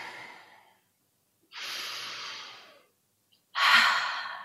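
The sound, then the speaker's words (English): A deep breath taken together by an audience, some gathered in person and some joining online. A few long, airy breaths are heard alone, with quiet pauses between them. “Would you take a breath with me?”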